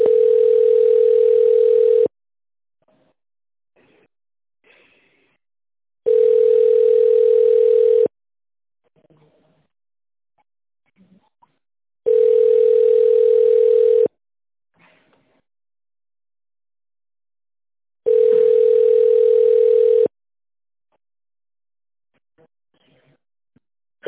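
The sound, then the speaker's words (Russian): Telephone ringback tone on a call forwarded to a branch's senior accountant through an automated phone menu: four long, steady tone bursts of about two seconds each, spaced by even gaps of roughly four seconds. “Ваш вызов переадресован старшему бухгалтеру филиала.”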